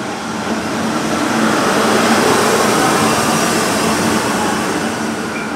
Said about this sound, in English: We are now on the train. It is moving. You can hear it in the background.